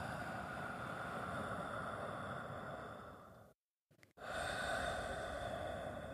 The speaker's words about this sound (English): take some slow, deep, and long breaths, drawing from your belly and not from your lungs, right? Just try that right now.